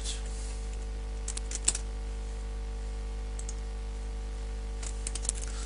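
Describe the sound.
Light key clicks on a computer keyboard as a web address is typed. A few quick clusters of taps are separated by pauses, over a steady low electrical hum.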